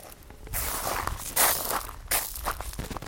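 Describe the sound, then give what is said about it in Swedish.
Footsteps crunch on a gravel yard outside Tyresö Castle, a few slow, gritty steps with a soft scrape and crackle at each footfall and no voices. “Det är mina steg på grusplanen utanför Tyresö slott.”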